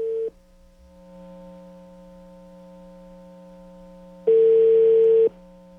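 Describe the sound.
Ringback tone of an outgoing phone call: a brief steady beep at the start, a stretch of faint low hum, then a louder one-second tone of the same pitch near the end.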